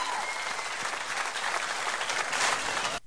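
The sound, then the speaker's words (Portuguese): An audience claps in a dense, steady burst of applause that keeps an even level throughout and then stops abruptly near the end. “Uma salva de palmas, milionários e amigos.”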